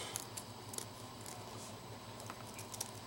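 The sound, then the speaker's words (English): An old pair of scissors trims all the way around something with faint, crisp snips and clicks scattered over a low hiss. “Now, we're going to trim. We got the scissor and go all the way around.”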